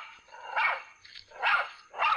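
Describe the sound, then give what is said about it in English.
A dog stands outside a house and barks toward a corner of an enclosure. It gives several sharp, mid-pitched barks in an uneven rhythm, three of them loud with a fainter one between, and no voices are heard. “his attention was distracted by his dog, who stood on the outside of the house, barking and keeping his eyes fixed on one corner of the enclosure.”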